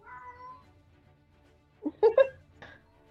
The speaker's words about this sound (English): Which cat is that?